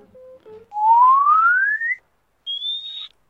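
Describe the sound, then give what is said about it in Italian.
A high-pitched human whistle: a long, smooth upward glide, then a brief pause and a shorter, higher held note. It is loud and clear, with low faint tones before it and no talk. “E la cosa che diciamo che ha colpito Tommaso è stato appunto il mio fischio, che riesco ad arrivare un po' in alto. Provo a farvi un acuto.”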